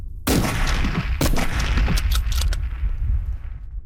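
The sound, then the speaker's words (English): Gunshots at targets on a shooting range: many loud, sharp cracks in an irregular sequence, some close together, with booming tails between them. “Targets to your front, on your own time, go on! Your own targets, your own time, go on.”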